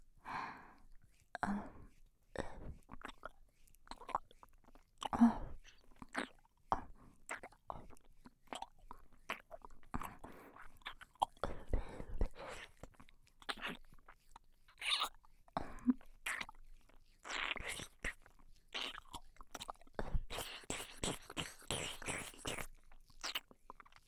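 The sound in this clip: Intimate mouth sounds of licking and nibbling an earlobe: many soft, irregular wet smacks, clicks and nibbling noises, quiet and close, continuing throughout.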